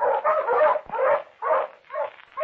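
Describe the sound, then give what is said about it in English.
Pointer dogs on a hunt let out a rapid run of short yips, whines and bark-like cries, closely spaced and fairly loud. “Hey, the dogs are entering the woods.”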